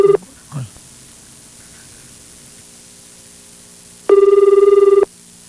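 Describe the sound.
A telephone ring tone sounds during a prank call: a brief clip of tone at the start, then one steady, faintly pulsing ring about a second long over a constant static hiss.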